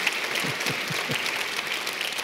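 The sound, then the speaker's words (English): A church audience applauding to welcome new members, an even wash of clapping that carries steadily from start to finish at moderate volume. “So by applause, would you just welcome them and say, congratulations for joining us.”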